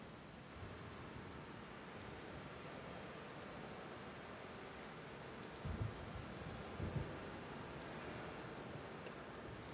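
Steady rain falls outdoors as a constant hiss, and two short, low thunder rumbles come through in the second half, with no voices.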